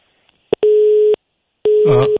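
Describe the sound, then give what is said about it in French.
Telephone busy tone after a call is cut off: a small click, then two steady, evenly pitched beeps separated by a gap of silence, loud and clear. “Là, ça a coupé.”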